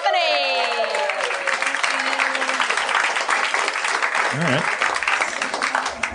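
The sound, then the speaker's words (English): Audience applause at a live stage show as a volunteer is called up, a loud, steady roar of clapping that fills the whole stretch, with a voice briefly heard over it at the start. “Let's give a round of applause for”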